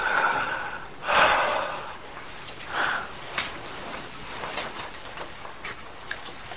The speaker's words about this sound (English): Breathe in deeply. Now breathe out. Again.